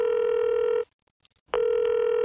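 A telephone line tone sounds after someone calls. The loud, steady mid-pitched beep cuts off for under a second of near silence, then resumes just as strongly.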